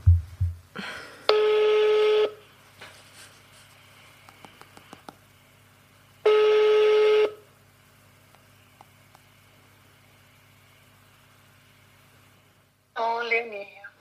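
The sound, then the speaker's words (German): Telephone ringback tone sounds as a call is placed: two long, steady beeps about four seconds apart, with faint clicks in the quiet gaps and a short burst of other sound near the end. “So, das ist jetzt die Leonie, die wir jetzt anrufen.”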